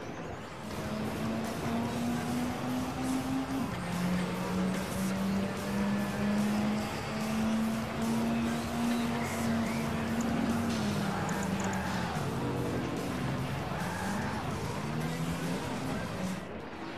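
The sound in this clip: A motorbike engine roars in a racing video game, the red bike running loud and continuous with a steady droning pitch that wavers and dips slightly at times.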